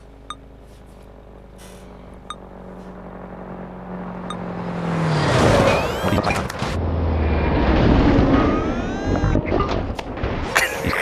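Vehicles colliding in a video game, one hit and deflected: a rumbling engine builds, then loud crashing and scraping noise bursts out and carries on with engine tones, after a few faint, short beeps early on.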